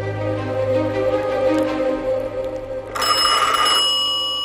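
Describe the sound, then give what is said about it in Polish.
A telephone ringing with a steady, sustained tonal ring that turns into a brighter, sharper burst of ringing near the end. “Zadzwonił telefon.”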